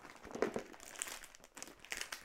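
Gift-wrapping paper crinkling and rustling as a child tears open a present. A faint, continuous crackle with irregular louder crunches throughout.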